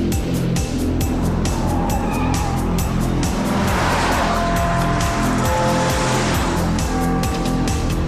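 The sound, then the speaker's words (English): A white convertible Mercedes speeds past, its engine and road noise forming a loud, continuous rush that swells in the middle, with scattered sharp clicks and brief thin tonal whines. “A glamorous woman with black bobbed hair driving a white convertible Mercedes follows him. She speeds past him.”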